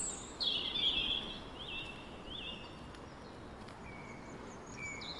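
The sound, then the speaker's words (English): Nightingales sing in trees, heard as a few short, high, chirping phrases that stay faint over a steady background hiss. “In the trees seem to be hundreds of nightingales.”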